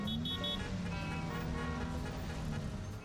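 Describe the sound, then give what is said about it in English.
Busy road traffic rumbling in a dense, steady wash of engine and tyre noise, loud and continuous with no clear breaks. “So through the hustle and bustle and pile up of traffic,”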